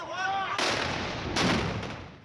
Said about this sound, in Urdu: غزہ میں ہونے والا پہلا دھماکہ